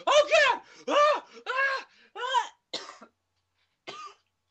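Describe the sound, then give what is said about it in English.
A person coughs in a series of harsh, voiced bursts, several in quick succession, then a couple of shorter ones and a final cough after a brief pause. No other sound is heard. “Was that you adding acting, or were you actually just coughing?”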